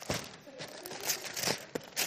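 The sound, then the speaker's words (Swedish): A wrapped present is torn open hastily, its paper crinkling and ripping in quick, uneven bursts over about two seconds. “nej, jag ska öppna det nu, direkt. Jag vill se vad som är här i. Så han river det hastigt.”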